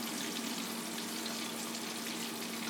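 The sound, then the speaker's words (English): Steady sizzle of food frying in a fryer basket: a continuous, dense hiss that stays even and fairly loud throughout, with no talk over it. “Fry it up. Seems to be doing good. Shake this basket around a little bit here.”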